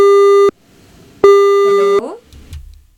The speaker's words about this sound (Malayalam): Call വീണ്ടും ഡ്രോപ്പായി.